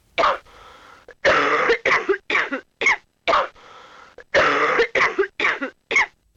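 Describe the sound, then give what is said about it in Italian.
Harsh coughing comes in many short, loud bursts with brief silences between them, grouped in two fits, with some coughs rougher and longer than others. No voices are heard. “Iniziamo col primo colpo di tosse.”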